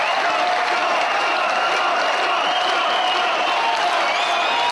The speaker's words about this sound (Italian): Quando lascia il palco il pubblico ripete il suo nome a gran voce.